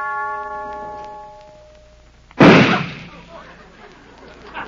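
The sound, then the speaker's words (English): A gun fires in practice, one sharp loud bang with a decaying tail, after a sustained musical tone fades out. “Missed. Dogged if I ain't getting blind in my old age. Laramie, what are you doing with that gun? Practicing.”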